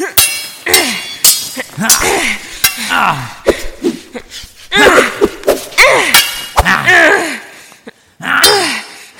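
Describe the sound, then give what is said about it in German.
Swords clashing in a long, bloody fight: many loud metallic clangs and scraping strikes in an irregular rhythm, with ringing, sliding tones after the blows. “Minutenlang schlugen die Schwerter aufeinander ein”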